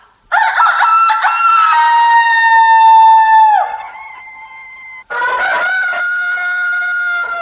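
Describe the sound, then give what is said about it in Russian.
Roosters crow in two long, loud calls. The first is drawn out and drops in pitch near its end before trailing off, and after a brief gap a second crow follows, strong and steady. No other sounds accompany them. “И все знаменские петухи закукарекали в ответ.”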